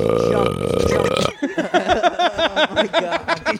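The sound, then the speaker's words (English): Someone burps over and over in a rapid string of short, croaky belches that keeps going to the end. It follows an opening stretch of sustained, voiced sound. “We just burped for 30 minutes.”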